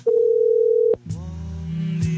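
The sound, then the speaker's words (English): An answering machine beep: a single steady mid-pitched tone lasting nearly a second, cut off by a click, then a lower humming phone-line tone with a buzzy edge that carries on to the end. “Leave a message at the beep.”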